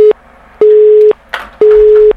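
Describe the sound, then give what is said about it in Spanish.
A telephone busy signal sounds after a caller to a radio station's phone line hangs up: loud, steady, mid-pitched tone pulses of about half a second, alternating evenly with short silences, with a brief noisy burst in one gap. “Bueno, no hay nadie. Había, pero había alguien ahí detrás del teléfono, pero nos cortó.”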